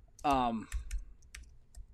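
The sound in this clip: Computer keyboard keys tapping as a phone number is typed in, a few sharp, spaced-out clicks following a brief voice at the start.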